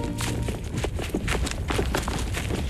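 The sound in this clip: Quick running footsteps of several animated characters hurrying to a station to catch a train: a rapid series of soft thuds over a dense, noisy background.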